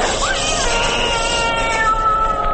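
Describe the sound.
A cat meows in a drawn-out, wailing caterwaul, a loud, high, sustained cry with wavering pitch that fills the whole stretch without a break.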